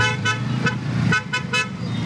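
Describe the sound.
Car horns honk in heavy road traffic jammed by a summit of many heads of state, with several short toots over a steady low rumble of engines.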